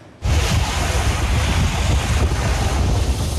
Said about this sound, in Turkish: Alanda Karadeniz dalgalarının şiddeti kullanılarak elektrik üretiliyor.